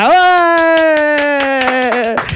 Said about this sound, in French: Et oui, vous êtes bien sur les grosses têtes, applaudissez.